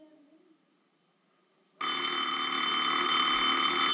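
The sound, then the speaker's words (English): A telephone bell rings loudly and continuously. The bright, clattering electric ring starts abruptly after a quiet stretch with faint low sound and keeps going steadily to the end. “Yes, operator, please keep ringing.”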